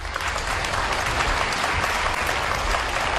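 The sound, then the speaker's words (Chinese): Loud, sustained applause from a crowd welcoming someone onto a stage, a dense, unbroken wash of many hands clapping at constant strength from start to finish. “掌声鼓励。掌声啦、啊！掌声鼓励！”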